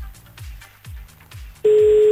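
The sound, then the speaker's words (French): A telephone call being dialed, heard as a run of short, evenly spaced tones followed by a loud, steady line tone that continues to the end. “c'est parti, on y va, on appelle le premier, Marbéan”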